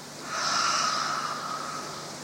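A single long nasal breath, like breathing in through the nose during a relaxation exercise, rises from quiet and holds as a steady, soft, airy hiss until the end, with no talking.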